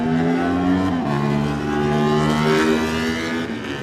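A racing motorcycle pulls away from the start line after the flag in a road race, its engine roaring loud and revving upward, dropping briefly at a gear change before climbing again.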